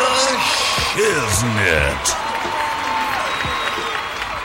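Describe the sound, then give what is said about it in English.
Audience applause and crowd noise greet the opening of a show. The dense clapping runs steadily throughout, with voices carrying over the top of it. “Now, put your hands together for”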